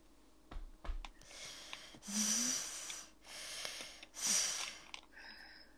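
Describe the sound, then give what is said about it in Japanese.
Deep breathing by a person settling their nerves, three long, airy breaths in a row, fairly faint and alone, after a couple of brief sniffs. “そんなに深呼吸必要そんなに深呼吸必要だった”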